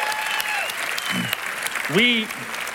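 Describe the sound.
An audience at a church service applauds men joining from a prison campus, with steady, dense clapping throughout and a voice speaking over it.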